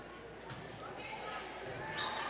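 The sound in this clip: A volleyball is struck during a serve in a high school match, with a few dull ball thumps rising over a steady gym murmur while a commentator talks throughout.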